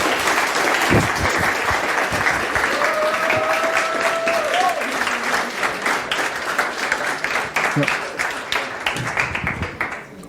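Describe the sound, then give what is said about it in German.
Loud, steady applause from an audience, with dense clapping that fills the whole stretch and thins slightly near the end. “Ein Applaus für Leon Akku.”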